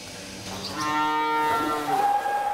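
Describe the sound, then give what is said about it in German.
Belgian Blue beef cow with her black-and-white calf mooing: one long, loud, drawn-out moo with rich harmonics that swells and ends on a higher, strained note. “weißblaue Belgier heißen die und dadurch ist das Kalb halt so schwarz-weiß und Kalb und Kuh sind wohl auf.”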